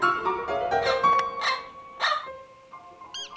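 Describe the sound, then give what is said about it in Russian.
A parrot mimicking a dog's bark gives a few short, harsh, yapping barks, followed by a brief burst of high chirps at the end. “Из кустов раздался лай. Это лает попугай.”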